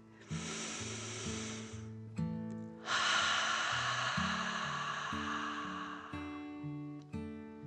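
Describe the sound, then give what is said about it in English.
A voice imitates a dragon's deep breath: a breathy inhale, then a longer, stronger hissing exhale. Soft background music with sustained tones plays underneath. “The dragon took a deep dragon breath in and out.”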